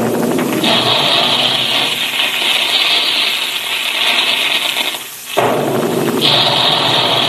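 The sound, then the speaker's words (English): Big guns firing as a sound effect in a cereal advertisement for puffed wheat and puffed rice: a loud, sustained harsh roar that breaks off briefly, then bursts back in. “There go the big guns now”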